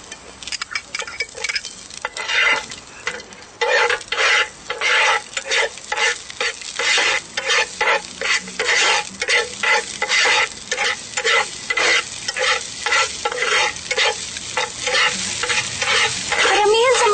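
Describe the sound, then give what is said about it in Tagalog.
Garlic and onion sauté in a hot pan as the base for squash in coconut milk, a loud steady sizzle. Many quick metallic scrapes of stirring break through it in an uneven rhythm from start to end. “Pag mainit na, ilalagay na natin ang bawang at sibuyas.”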